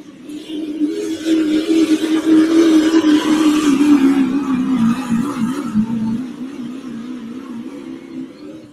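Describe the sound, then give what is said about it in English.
A Chevrolet Duramax V8 engine roars at high RPM during a track competition, a loud, sustained drone whose pitch wavers slightly as it pulls, then the sound fades away over the last few seconds. “Good running V8 Chevrolet Duramax. Was turning a lot of RPM at mid-track.”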